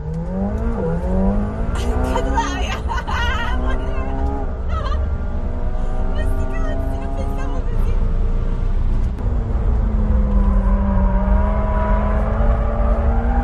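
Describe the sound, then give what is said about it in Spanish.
A McLaren race car is driven fast around a racetrack with a passenger aboard, its loud engine note climbing in pitch again and again through a series of gear changes, continuous throughout. “Fíjate cómo de impresionada la deja en una pasada de vuelta que le pega con el McLaren.”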